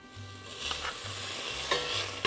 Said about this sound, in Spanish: Ahora ponemos nuestro recipiente a fuego lento y lo primero que vamos a adicionar es mantequilla.